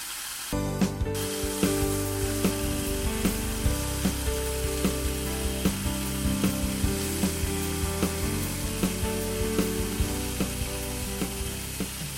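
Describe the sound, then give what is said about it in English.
Food sizzles in heated oil in a pan, a steady loud hiss broken by many regular crackling pops throughout, with no talking. “now that oil is pretty much heated. I'm going to pop these. Into my pan.”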